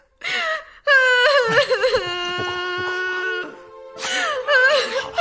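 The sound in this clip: Someone cries and wails in drawn-out, trembling sobs with a quavering pitch, broken by short gasping pauses.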